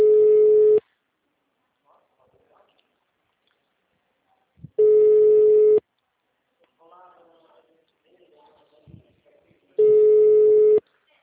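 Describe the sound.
Telephone busy signal on a phone line: three loud, steady tone bursts about a second each, spaced several seconds apart, with a recorded voice speaking quietly in the gaps.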